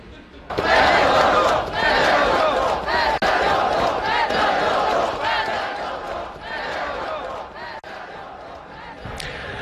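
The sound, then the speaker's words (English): Protesters in Ukraine chant loudly against President Zelensky over his firing of the defense minister, the crowd's voices rising in repeated rhythmic surges with a few sharp knocks between them, the chant fading slightly toward the end. “Sounds there of protesters campaigning against the president there in protest at his decision to fire his defense minister.”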